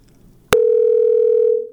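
Telephone line tone of an incoming call on a radio call-in line: a sharp click, then a single loud, steady low tone held for about a second before it fades out.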